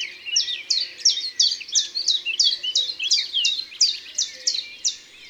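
Song of a common chiffchaff, a small green-grey early migrant bird heard from mid-March, delivering a long run of bright, high, evenly repeated chirping notes in a simple bouncing rhythm.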